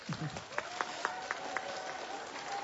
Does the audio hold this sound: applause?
yes